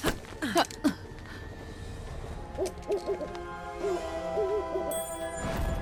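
Bird calls: a couple of loud, sharp calls near the start, then a run of shorter, low warbling, hoot-like notes, fairly faint over a steady background.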